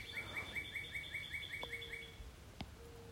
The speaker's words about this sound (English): So as I'm looking at the clouds moving by and hearing the birds in the background